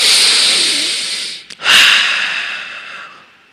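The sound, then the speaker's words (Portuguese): A person takes a deep breath in through the nose, a loud, airy hissing sniff of over a second, then after a brief break a second long breath that slowly fades out. “Respira bem fundo agora. Faz assim, ó.”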